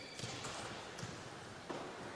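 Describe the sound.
A basketball clanks off the rim on a missed free throw at a girls' high school game. A few faint, dull thuds sit under steady gym crowd noise, and the clearest knock comes near the end.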